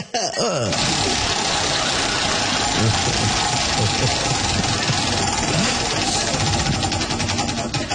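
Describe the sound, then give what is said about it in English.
Rapid ticking of a prize wheel being spun during a quiz game, a steady rattle of fast clicks that runs unbroken over a dense, loud wash of noise for the whole stretch. “get up here and spin that wheel.”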